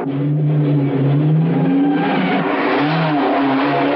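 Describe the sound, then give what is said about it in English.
Car engine revving hard during a chase, a loud continuous roar with shifting pitch as the car accelerates, no voices. “Meanwhile, Peter and Angelo continue to pursue Rocco.”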